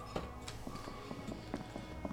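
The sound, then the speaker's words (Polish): Running footsteps of a video game character moving with its sword sheathed: many quick, irregular hoof-like thuds over a steady game backdrop, with no talk. “jak się schowa miecz, wtedy postać biegnie trochę szybciej”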